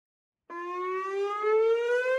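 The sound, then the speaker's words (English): A Cold War-era civil defense siren in Hawaii, meant to warn of a nuclear attack, sounds a steady wailing tone that starts abruptly and climbs slowly in pitch as it holds. “That's the sound of Cold War-era sirens that are meant to warn people that a nuclear attack is coming.”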